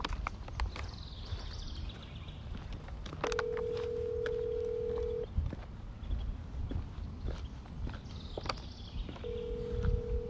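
Ringback tone of an outgoing phone call waiting to be answered: two long, steady, mid-pitched beeps over constant background noise, the second starting near the end and cut off.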